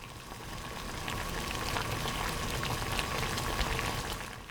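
Water boils in a cooking pot used to cook mustard greens, a faint, steady bubbling hiss with scattered small pops that continues unbroken throughout.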